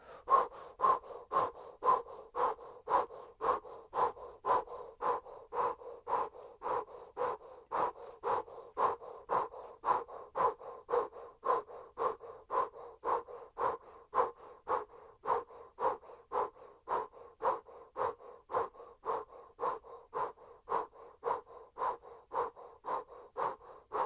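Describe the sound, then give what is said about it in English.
Yogic breath of fire: rapid, forceful breathing with many short, sharp exhalations at a steady, even pace, repeated throughout with no talk. “Continue the breath of fire.”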